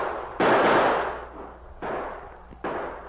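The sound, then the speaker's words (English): Gunfire from outlaws in a snowy wooded gunfight: three loud, sharp bursts, the first long and broad and the next two shorter, each fading out into a low background between shots. “The outlaws opened fire.”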